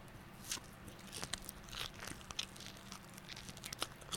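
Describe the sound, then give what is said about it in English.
Soft biting and chewing of a marshmallow, done ASMR-style: many small, crinkly, crunchy clicks and moist smacks fall at an uneven pace over a faint background hiss, with no talking. “It's ASMR of me eating a fucking marshmallow.”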